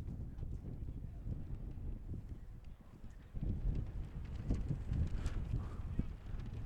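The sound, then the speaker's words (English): Wind buffets the microphone at a high school baseball game between Marysville and Marine City, a low, rumbling roar that swells noticeably louder halfway through and keeps gusting unevenly. “this wind blowing everything”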